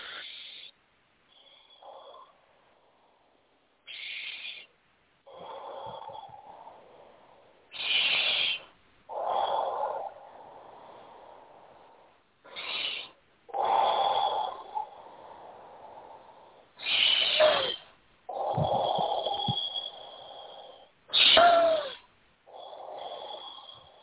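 Deep breathing in and out during a guided seven-breath exercise: a series of airy, rushing breaths, some sharper and louder and others softer and longer, repeating with short gaps between them and no talk.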